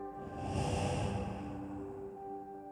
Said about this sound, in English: let us take a deep breath in and exhale through the mouth